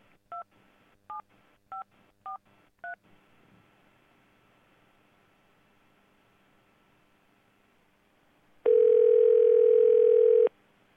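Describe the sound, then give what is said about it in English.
Telephone keypad touch-tones enter an account code: five short, evenly spaced beeps, a quiet hiss, then one long, loud steady tone near the end. “Please enter your account code followed by the pound key.”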